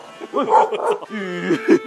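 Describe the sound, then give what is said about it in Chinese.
A biting dog barks in quick, sharp yaps, a rapid run of several short, loud yelps packed closely together. “狗咬人啊！”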